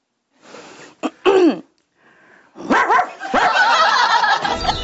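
A person imitates a dog barking while demonstrating a dog-style breathing exercise: a few short, loud, bark-like yelps, one dropping in pitch, then after a brief pause a longer, denser stretch of loud, rough, throaty barking sounds.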